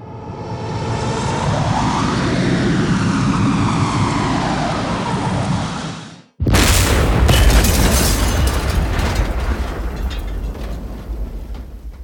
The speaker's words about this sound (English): he and his core superheroes sit aboard Aguila 1, the plane which they had spent the past 3 years building.